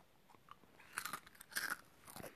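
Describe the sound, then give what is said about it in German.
Crunchy food being chewed: a run of faint, irregular crisp crunches and bites, with no talking. “Ich esse jetzt wieder was.”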